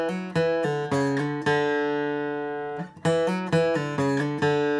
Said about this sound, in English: Now, the fill I'm talking about is, again, the latter half of this lick, the latter portion, the part that sounds like this.